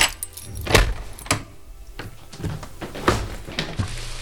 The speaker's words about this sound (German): Ich muss nur eben aufschließen.